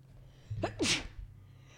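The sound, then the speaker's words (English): A single sharp human sneeze, quick and fairly faint, with a short breathy intake followed by a bright burst of air against a quiet background. “I sneezed on it.”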